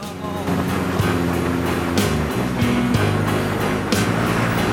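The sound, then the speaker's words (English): A cargo train trundles past a motel: a steady, heavy low rumble with shifting engine-like hum and regular clacks roughly once a second throughout. “A cargo train trundles past the Sands Motel.”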